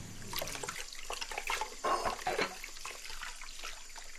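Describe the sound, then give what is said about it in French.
Water gurgles and trickles in a sink in a continuous, fairly faint bubbling wash, with a few slightly louder spurts partway through. “S'il y a des glouglous comme ça dans le micro, c'est parce que cette histoire se passe dans un évier.”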